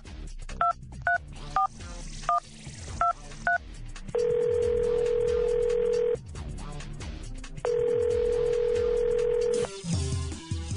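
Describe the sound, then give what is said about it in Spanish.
A telephone is dialed to a direct line to the White House: a quick series of keypad two-tone beeps, then two long, steady ringing tones separated by a brief pause. “Bueno, usted sabe que tenemos línea directa hasta la Casa Blanca, ¿no? Déjeme marcar.”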